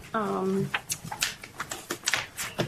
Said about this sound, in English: So if we turn to agenda paper 9, which is the normal project update and agenda planning paper that ASAP members receive.